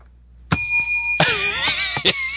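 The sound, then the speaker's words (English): An original ante-up bell rings out with bright, sustained metallic tones, struck a few times so that each new strike layers over the previous ringing. “This is the original Anti-Up Bell.”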